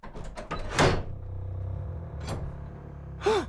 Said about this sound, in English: Oh, did you hear that? I did. It sounded like a latch.